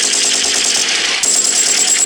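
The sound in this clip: Rapid gunfire in a video game, a dense, unbroken rattle that fills the whole clip, loud and bright, with a brief dip partway through before it continues.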